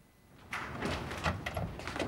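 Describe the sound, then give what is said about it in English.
A door is opened to let a visitor in, giving a soft rustle followed by a few faint scraping and knocking sounds from the door moving. “She goes over to the door and lets Nicholas, a 30-something white guy, in.”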